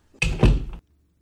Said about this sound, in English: This is the sound of a gavel.